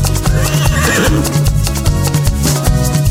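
A horse whinnies within bouncy children's music, a high neighing call over a steady beat and dense instrumental backing.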